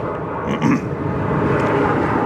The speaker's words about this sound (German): da fliegt ein Flugzeug über mich hinweg. Dürfen die sonntags über mich hinweg fliegen? Ist das erlaubt?